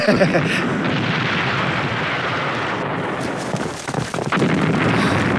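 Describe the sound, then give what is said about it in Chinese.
Bombs explode outside a city during an enemy air raid, merging into a loud, continuous low rumbling roar with a brief dip before the rumbling swells again. “这城外炸得真热闹”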